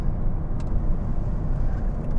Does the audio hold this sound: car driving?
yes